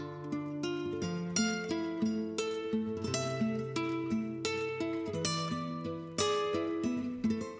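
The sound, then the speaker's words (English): Solo classical guitar opens an album track, with plucked notes ringing in a steady, gently rolling pattern as bass notes shift beneath a higher melody line. “So the album starts off with a track that is completely driven by classical guitar. It sounds like this.”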